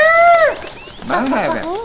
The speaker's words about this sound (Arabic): ما هذا الغناء الجميل؟ مرحبا يا ببغاء، كيف حالك؟